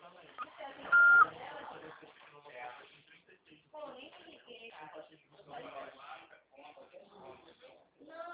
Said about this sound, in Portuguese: Sua chamada está sendo encaminhada para a caixa de mensagens e estará sujeita a cobranças após o sinal. Após o sinal, fale o seu nome e deixe o seu recado.